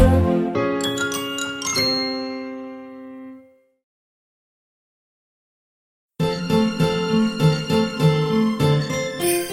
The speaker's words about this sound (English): Wow, it's Christmas! Can you hear the jingle bells?